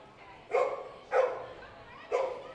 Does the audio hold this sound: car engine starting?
no